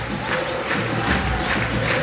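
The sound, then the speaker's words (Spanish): Steady, dense murmur of a football stadium crowd waiting on a VAR review of a stamping foul, a continuous loud wash of many voices with no clear cheers or peaks. “Ahora que veo la repetición, vamos a esperar. Vamos a ver si hay llamado del VAR. El público expectante.”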